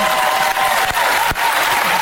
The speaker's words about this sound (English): Begging for applause.